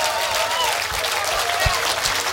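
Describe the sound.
Audience applause for a touring band at a live show in Finland, a dense, steady clapping that fills the whole clip at an even loudness.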